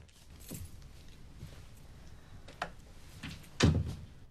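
An apartment door opening as a woman lets herself in: a few soft clicks and light knocks, then a heavier thump near the end, all faint and with no talking.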